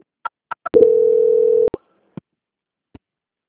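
A telephone tone during a call transfer: one steady, sustained low beep of about a second, with three short clicks before it and a few fainter clicks after, and no voices.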